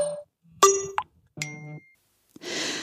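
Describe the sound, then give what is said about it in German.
A message notification chime: a few short, clear tonal dings with steady pitch, separated by silent gaps, followed by a brief soft hiss. “Nachricht von Tobi.”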